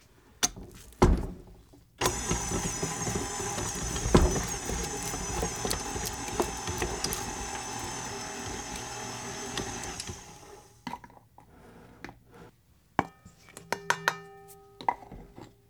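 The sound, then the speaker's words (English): Stand mixer creaming softened butter with powdered sugar, its motor giving a steady, fairly loud whirring drone with beater rattle for about eight seconds before stopping. Light clicks and knocks come before and after. “the butter has been softening in the bowl of my stand mixer. I'm going to go ahead and cream that together with the powdered sugar, also known as confectioner sugar.”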